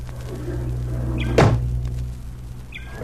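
Two sharp thuds from a toy rocket ship being forced open in a radio drama, a strong knock midway and a shorter one at the end, over a steady low hum.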